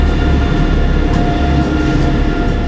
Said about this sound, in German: das ist der Zug nach Sylt, der jetzt wegfährt.